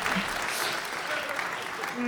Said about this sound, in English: Round of applause for DeepBot.